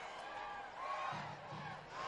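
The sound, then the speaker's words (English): A lively, full crowd at a Green Jackets baseball game sends up a steady, broad roar of cheering and chatter while the team mascot works to pump up the fans. “Augie getting the crowd pumped up, the mascot for the Green Jackets. What is a lively and full crowd here tonight.”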